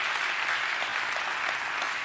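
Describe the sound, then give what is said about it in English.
A church audience gives a hand clap of praise to the Lord, a thick, sustained wash of many hands clapping at an even loudness from start to finish. “I want you to give the Lord a hand clap of praise wherever you are right now if God has been good to you”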